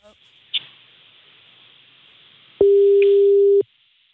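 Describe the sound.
A telephone line tone sounds once as a steady, mid-pitched electronic beep lasting about a second, after a stretch of quiet line hiss with a faint click or two.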